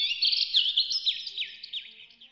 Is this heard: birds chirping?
yes